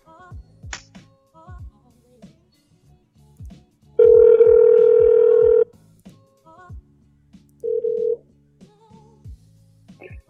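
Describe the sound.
Telephone signal tones: a loud, steady electronic tone lasting about a second and a half, then a shorter, quieter burst of the same tone, with softer scattered sounds between.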